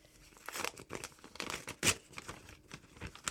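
A paper envelope is opened: several short bursts of crinkling and tearing paper, fairly faint, with one sharper rip near the middle and no voices.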